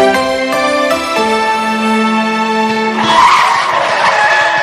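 Car tires skid under hard braking: a loud, sustained tonal squeal that shifts pitch in a few steps, then breaks into a rougher, noisier scraping screech for the last second and a half.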